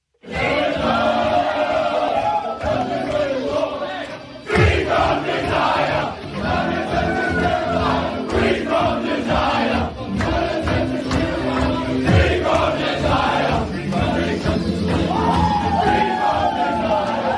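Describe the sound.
Crowd of a sports team partying in the team rooms, yelling, whooping and chanting together in a loud, unbroken din that keeps going throughout.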